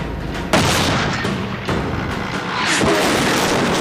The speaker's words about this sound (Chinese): 他击中了，他把虎式坦克打爆了